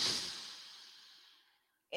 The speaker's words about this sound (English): All right, take a deep breath in.